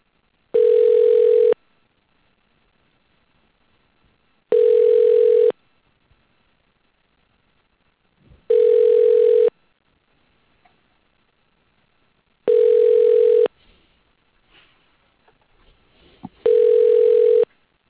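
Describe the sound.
A ringback tone sounds on a telephone line while an automated system transfers a call to an extension: five steady, even buzzing tones about a second long, spaced by regular silences, with no talk.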